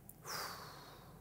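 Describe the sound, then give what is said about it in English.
A faint, slow exhale after holding the breath: an airy hiss that begins suddenly and holds steady to the end, with a slight thin whistling edge. “So go ahead and slowly exhale.”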